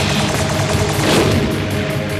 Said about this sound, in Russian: он с отчаянным воплем хлестнул длинной очередью по глазам зверушки